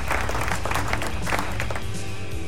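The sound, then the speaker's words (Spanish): Applause on a rock music radio programme: dense clapping mixed with crowd noise, steady and fairly loud across the short clip. “¡Aplausos!”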